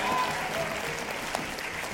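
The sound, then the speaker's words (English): Congregation applause at a church baptism service: dense, steady clapping that holds an even level for about two seconds without a clear break. “You can cheer that. You can clap that.”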